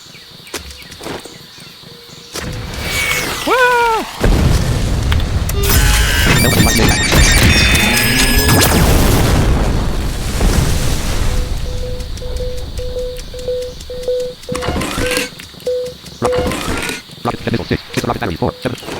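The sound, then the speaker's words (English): Rocket battery explosions in a video game: a loud, dense barrage of overlapping booms and crackling bursts, with a few sweeping tonal whines early on, then a long stretch of sustained rumbling noise. “Yeah, these rocket batteries are really cool.”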